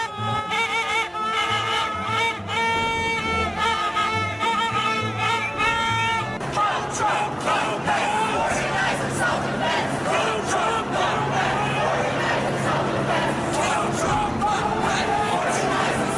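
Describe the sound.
A May Day protest crowd marches and chants. A sustained tonal, sung passage comes first, then a dense, loud wash of many voices carries on steadily, with chanting and cheering throughout.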